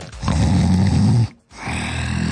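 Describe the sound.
A human voice imitates a tiger's growl with two raspy, low rumbling bursts: a loud one of about a second, a brief break, then a slightly softer second growl that runs to the end.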